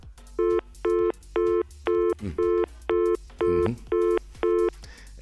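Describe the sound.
Ringing on a radio call-in telephone line: nine evenly spaced, steady electronic tone bursts with short gaps between them, and a voice speaking faintly in a couple of the gaps.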